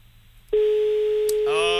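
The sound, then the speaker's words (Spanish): A telephone ringback tone sounds on an outgoing call: after half a second of near quiet, a single steady, mid-pitched tone starts abruptly and holds at an even level to the end. “Tercer tono, José, ¿dónde estás? Cuarto. Y vamos a por el último.”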